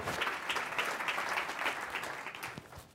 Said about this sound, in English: For our radio audience, that's the sound of an extended standing ovation.